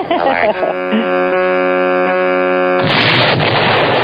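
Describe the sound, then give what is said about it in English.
A bomb sound effect: a steady buzzing tone holds for a few seconds, then gives way to a loud, rough, rumbling burst of noise that lasts to the end. “i was going to play some fun bomb or alert or whatever for her benefit.”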